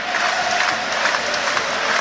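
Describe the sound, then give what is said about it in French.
Football supporters in a stadium applaud timidly, light scattered clapping over a constant crowd murmur. “Les applaudissements des supporters au Serrois, mais ça reste assez timide pour l'instant.”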